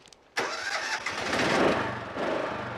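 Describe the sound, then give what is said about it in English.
A tractor engine cranks and catches abruptly, then runs loud and steady with a rough, throbbing rumble as the tractor trundles off. “starts the tractor and steps off it as it trundles away.”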